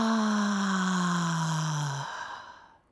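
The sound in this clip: A sung 'ah' vocal tone for root chakra toning, released after a deep breath: one sustained, resonant voiced note lasting about two seconds, its pitch sinking gently before it fades away.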